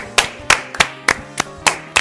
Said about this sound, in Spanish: Un aplauso, por favor. Un aplauso.